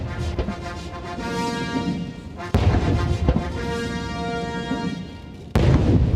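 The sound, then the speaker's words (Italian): Two cannon salute booms fire over a military march at an arrival ceremony on the White House lawn, each sharp, loud blast cutting into the steady brass band music. “avete sentito le salve di cannone che venivano sparate sopra una marcetta di nuovo militare”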